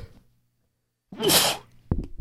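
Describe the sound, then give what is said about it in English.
A single loud, explosive human sneeze bursts out after a quiet pause. A brief, lower sound follows right after it. “Y'all stop holding y'all sneezing too. Tuck that shit. Let that shit out.”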